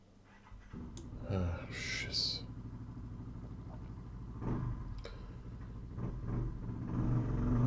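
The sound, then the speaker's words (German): A passing motorcycle, its low engine rumble running under talk and swelling louder toward the end. “Danke, Motorradfahrer. Ja, das haben wir aber gut gehört jetzt.”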